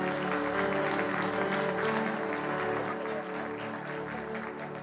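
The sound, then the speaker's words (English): Audience applause welcoming a speaker to the stage at a conference, a dense, steady wash of many hands clapping that holds loud throughout and eases slightly toward the end. “So would you put your hands together and join me in welcoming Dr. Bernie Power.”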